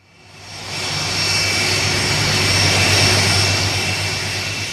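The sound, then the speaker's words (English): Jet aircraft engines roar on the taxiways at London's Heathrow Airport. The broad, loud rushing sound swells during the first second, then holds steady with a persistent high whine over a low rumble. “It's a typically busy day at London's Heathrow Airport. Dozens of aircraft are moving out onto the taxiways, the air shimmering in the heat produced by the exhaust from their engines.”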